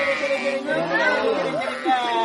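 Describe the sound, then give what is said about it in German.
A flock of sheep bleats in overlapping, wavering cries while a shepherd calls them. Voices and chatter are mixed in throughout. “Der Hirte ruft die Schafe.”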